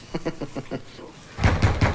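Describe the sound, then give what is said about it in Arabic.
Knocking on a door: a quick run of about five light raps, a short pause, then a heavier, louder series of knocks. “لك ساعه بتخبط على الباب، عمال تخبط خبط خبط خبط”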